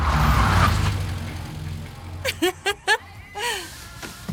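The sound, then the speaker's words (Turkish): A Formula 3 race car engine roars at the Crystal Palace circuit in London, 1970, a loud low rumble at the start that fades away, after which people talk. “Crystal Palace yarış pisti, Londra 1970.”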